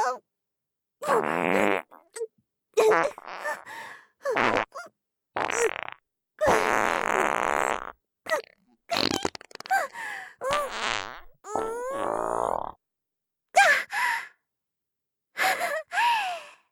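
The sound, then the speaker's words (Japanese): Many loud farts in an irregular series, some long and drawn out, others short and abrupt, separated by brief silences with gasps and breathy sighs in between. “強烈なおならをブババババーっていっぱい連射してあげちゃうから、覚悟してね”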